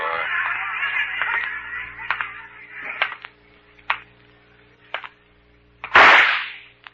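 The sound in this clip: A single loud gunshot fired in a radio drama, a sharp crack with a short fading tail, following a stretch of speech and several faint clicks.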